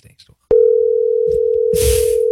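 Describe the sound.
Steady telephone dial tone heard while a call is being placed, a single unbroken pitch that starts abruptly after a few short voice sounds and holds to the end, with brief talk and rustling mixed in partway through.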